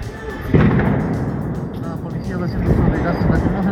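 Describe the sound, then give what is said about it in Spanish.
A tear gas grenade fired at protesters gives one sharp, heavy report near the start, followed by a sustained rumbling, noisy roar that swells again toward the end. “Los manifestantes lo lanzan hacia este lugar. Aquí está otra granada.”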